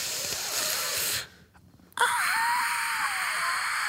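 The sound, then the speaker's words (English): Labored, wheezing breathing from a person who cannot breathe well: a loud rasping hiss, a brief near-silent pause, then another strained breath that carries a thin whistling wheeze. “So, do you know what that sound is? A ghoul. It's me not being able to breathe very well.”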